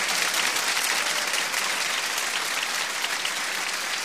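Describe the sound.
Steady clapping from a crowd accompanying a religious chant honouring Hussain, dense and even from start to finish with no pauses or voices.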